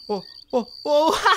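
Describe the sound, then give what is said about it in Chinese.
A fighting cricket chirps at the start of a bout with a high, steady, thin trill. The chirping runs under a few short bursts of excited voices. “呢只咧叫做铁仓背啊，好勇斗狠噶。其他蟋蟀啊，闻到佢阵除啊，都已经啊好惊噶啦。”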